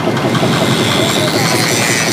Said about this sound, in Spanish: La temporada del St. Kitts Scenic Railway está llegando a su fin. La locomotora requiere mantenimiento.